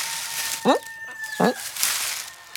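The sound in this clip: Hens cluck inside a henhouse. Two short, distinct clucks stand out a moment apart over a steady background hiss, and a faint steady tone runs beneath them.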